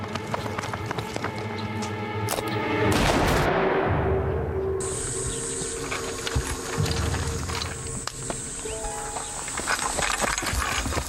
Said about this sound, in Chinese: 二当家，徐家大院响枪了。 听到了。